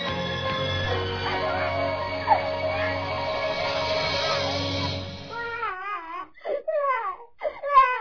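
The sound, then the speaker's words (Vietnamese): Crying and sobbing break out as a series of wavering, whimpering wails in the final few seconds, after a steady stretch of background noise. “Thôi nín đi em, nghe chị kể một câu chuyện rất thú vị đây này.”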